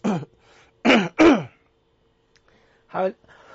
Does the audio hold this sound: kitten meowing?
no